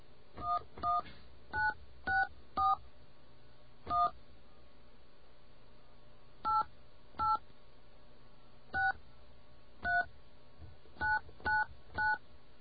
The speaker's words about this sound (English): I'm not supposed to dial 9 either.